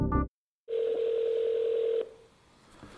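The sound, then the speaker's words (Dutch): Telephone dial tone as a call is placed: a short sound, a moment of silence, then a steady, even electronic tone holding for over a second before cutting off abruptly into faint hum. “En hij besloot ze gewoon op te bellen.”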